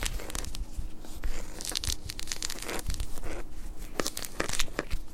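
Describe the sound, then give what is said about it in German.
Hands peel a mandarin orange, giving a steady run of crackly tearing and crinkling as the rind pulls away from the fruit, with scattered sharper snaps. No one speaks. “Während ich die Banane und den Apfel schneide, kannst du die Mandarine schälen.”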